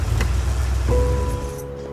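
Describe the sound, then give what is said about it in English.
A car engine rumbles as the car pulls in and parks at a motel at night. The low steady drone is joined midway by a clear tonal hum that fades near the end. “Bernie parks his car at the motel.”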